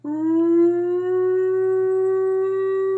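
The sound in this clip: Air raid siren sounding alone in one long, loud, steady wail that rises briefly at the start, with a low hum underneath.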